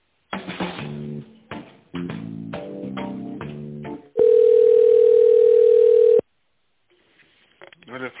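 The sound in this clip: Telephone ringing tone while a call is transferred: a single loud, steady, flat-pitched tone lasting about two seconds. Other tonal sounds come before it, and a short silence and a faint voice follow.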